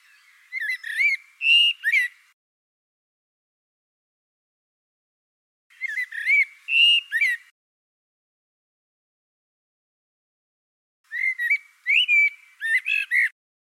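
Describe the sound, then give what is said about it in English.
A blackbird sings three separate phrases of low whistled notes with some higher, quicker notes mixed in. Each phrase lasts about two seconds, and long silences fall between them. “I learned that each song consists of two parts. The first is a low-frequency whistle, which is detectable over relatively long distances.”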